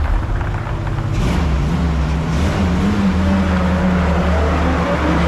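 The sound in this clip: A Zamboni ice resurfacing machine driving off, a steady, loud, low engine drone with a continuous motor hum throughout.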